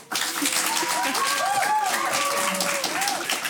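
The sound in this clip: An audience applauds with a steady spread of clapping, and voices are audible over it throughout.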